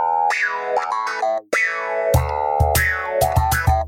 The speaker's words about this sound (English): The theme tune to Joey, which is... It's not... what's the word, Pete? Not a classic. Not good. Good, that's the word. Yeah, it's not great. It's so generic.